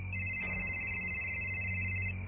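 An incoming call rings on a phone: a steady, high electronic ringtone is sustained for about two seconds over a low background hum.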